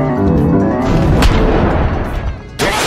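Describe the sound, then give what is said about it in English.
An attack move sound effect from a turn-based monster-battling video game, a loud, dense barrage of booming blasts that runs throughout, with sharper hits near the middle and at the end. “Attack Concerto. Symphonid used Attack Concerto.”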